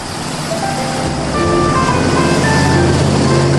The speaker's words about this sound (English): As the station wagon rounds a corner